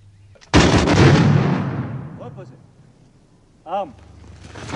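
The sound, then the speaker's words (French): Firing squad volley from soldiers executing a Vendée rebel leader: one sudden, loud crack of massed gunfire that rolls out and fades over a second or two, followed by brief quieter sounds. “Quand il inclinera la tête, les soldats pourront faire feu.”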